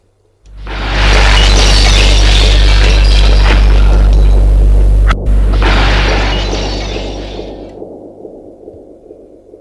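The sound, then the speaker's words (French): Glass shatters in a loud, sustained crash: a deep booming rumble under a dense spray of breaking noise that lasts several seconds, with a brief break midway before tapering off. “Le verre s'est brisé. Les verres se sont brisés.”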